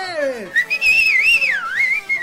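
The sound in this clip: Drunken men in a Texas bar whistle loudly at a young woman dancing on a table. A falling whistle is followed by a long, warbling one that swoops up and down in pitch.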